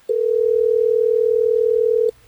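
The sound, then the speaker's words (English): Steady telephone dial tone heard while a call is being placed, one unbroken pitched hum of about two seconds that starts abruptly and cuts off cleanly. “Well, let's get Hayden on the phone.”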